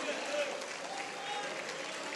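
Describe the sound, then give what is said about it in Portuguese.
A church audience applauding during a service in a Methodist cathedral: steady, dense clapping that fills the whole clip at an even level, with a voice speaking over it. “É o máximo que você pode dar a Deus com essas palmas.”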